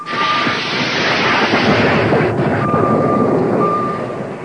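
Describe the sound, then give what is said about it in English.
Torpedoes being launched: a loud, continuous roaring rush with a thin whining tone running through it, holding steady for several seconds before easing slightly at the end. “Launch the torpedoes, Lieutenant.”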